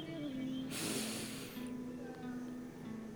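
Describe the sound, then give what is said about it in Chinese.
A deep breath pushed out hard through the mouth: one broad, airy, hissing burst lasting nearly a second, then fading into quieter breath noise. “你可以发出任何你想发出的声音，不要害羞，大口地吐出来。来，深呼吸”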